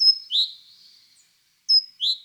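Great tit calls: high, thin chirping notes in two quick pairs separated by a pause, each pair a short bright note followed by a slightly lower swept note, heard alone without talk.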